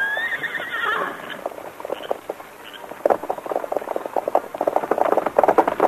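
A horse whinnies at the start, its call falling in pitch, and then hooves clip-clop in a quick, uneven patter that grows busier toward the end.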